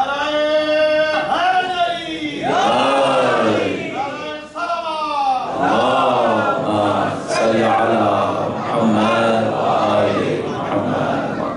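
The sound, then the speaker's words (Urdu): Crowd chanting slogans at a religious gathering (majlis), many loud voices shouting in unison in repeated rising and falling phrases, with short pauses between calls. “اگر 8-10-20 نعرے بھی لگ جائیں تو بہت ہی اچھی بات ہے, اس سے ذرا مجلس میں گرمی رہتی ہے.”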